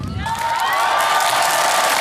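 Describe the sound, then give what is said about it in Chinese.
A crowd cheers and whoops loudly to welcome a singer onto a concert stage. The roar is dense and steady and keeps its level through the whole short stretch. “接下来让我们掌声有请。”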